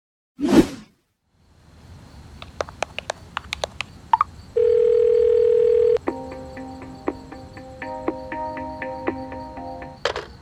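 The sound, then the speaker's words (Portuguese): A telephone dial tone after a dropped call holds steady for about a second and a half. A whoosh and a few sharp clicks come before it, and a run of layered electronic beeps and tones follows. “a ligação tenha caído”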